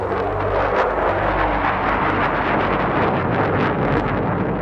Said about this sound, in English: Chilean Air Force jets blazed overhead.